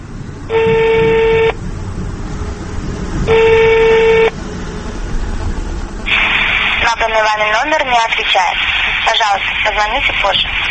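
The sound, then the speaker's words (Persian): A dialed telephone number goes unanswered: two buzzing ring tones of about a second each, a couple of seconds apart, followed by voices talking over a noisy line. “خوب می بینیم که رقم تلفنی که ما چیدیم پاسخ نمیگد”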